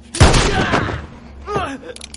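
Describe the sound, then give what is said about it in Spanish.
A single loud gunshot in a western film, fired into a man's leg, bursts out sharply and decays, followed by a brief pained voiced cry. “Le dispara en una pierna.”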